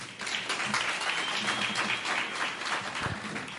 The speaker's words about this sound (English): So once again, and louder this time, come on, let's hear it for Dr. Khoza.